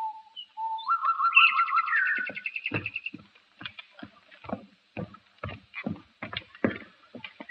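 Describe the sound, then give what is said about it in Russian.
Nightingale song: a few seconds of bright whistled phrases and quick trills, then many short, dull knocks and taps in an uneven series. “Я вижу, соловей не замечает нас. Мы для них как будто и не существуем. Поют себе и поют.”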